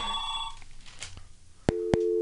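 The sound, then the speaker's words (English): A telephone rings: brief electronic ring tones with two sharp clicks near the end, fairly loud against a low background hum, with no clear talking. “Oh, what's that? Was that a phone ring? Now we get phone calls.”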